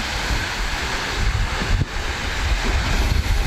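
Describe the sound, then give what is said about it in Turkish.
Wind and waves on Lake Van near Ahlat in Bitlis: a steady, dense roar of wind buffeting the microphone with washing surf mixed in. It stays fairly even throughout, with a brief dip partway through and no voices. “Bitlis'in Ahlat ilçesinde arkadaşlarıyla birlikte Van Gölü'ne giren bir kişi, rüzgarın etkisiyle oluşan dalgalar nedeniyle kıyıdan uzaklaştı.”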